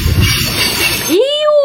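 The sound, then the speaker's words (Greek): Train wheels screeching on the rails, a rumbling, hissing run that gives way to a sharp metallic squeal climbing in pitch and then holding high and steady. “Στη θέση νούμερο 2 βάλαμε το τρίξιμο των τροχών ενός τρένου πάνω στις ράγες.”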